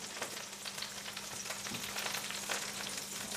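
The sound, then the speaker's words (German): Butter sizzles in a frying pan with meat-substitute residue, a faint, continuous crackling hiss broken by small sputtering pops, with no voices. “Da haben wir jetzt quasi die Bratenrückstände vom Fleischersatz. Äh, ich finde das wirklich witzig. Da tue ich jetzt Butter rein.”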